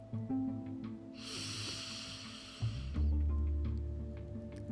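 A slow, steady breath drawn in during a four-count breathing exercise, heard as a soft airy rush lasting over a second, followed by quieter low noise.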